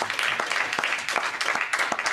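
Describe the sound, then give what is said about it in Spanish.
An audience claps during a church service, with dense, rhythmic handclaps that sound steadily and fairly loudly throughout. “denle un premio de palmas al Señor, bendito Jesús. Denle un premio de palmas a Dios.”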